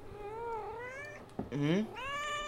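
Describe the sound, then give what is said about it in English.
A cat meows in a few drawn-out, wavering calls of moderate loudness, with a brief click between them and no talk over them. “Also, our cat August is here. August, say hi.”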